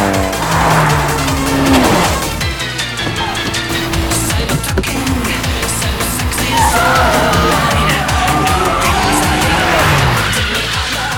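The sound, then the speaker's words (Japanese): Three racing cars, one of them an 86, charge into the first corner with loud revving engines and tires squealing, the engine notes shifting and overlapping continuously for about eleven seconds. “来た。第一コーナー3台繋がって突っ込んでくるぞ。”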